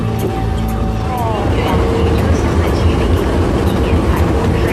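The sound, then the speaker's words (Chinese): Loud, dense train station ambience in Beijing, a continuous deep rumble with rail noise and a steady roar across the whole clip, blended with indistinct voices. “这是当时他从内蒙古来到北京的时候，我们在车站见到他的时候的场景。”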